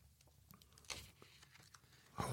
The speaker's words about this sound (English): I'm still reading from my court transcript notes. And so you're going to hear me turning pages and stuff.